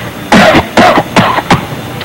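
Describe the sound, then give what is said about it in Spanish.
Forced, exaggerated coughing from someone faking a cold to pass it off as bronchitis: four harsh, loud bursts in quick succession, each short and rough, with no talking. “Mira, no, es que tose maduro, chico. Por un catarro así no se puede pedir ni 350, chico. Tengo que toser más duro.”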